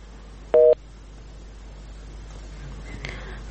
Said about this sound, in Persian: خب متاسفانه تماس خاطره مبارز قطع شد.